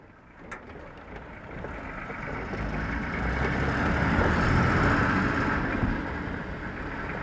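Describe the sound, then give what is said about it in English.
Steady engine rumble from a four-wheel drive Toyota pickup and a Russian Jeep, both heaped with luggage and spare gasoline tanks, bouncing along a logging trail. The low drone swells in the middle and then eases slightly. “A four-wheel drive Toyota pickup and a Russian Jeep, both heaped with luggage and spare gasoline tanks, bounce along a logging trail”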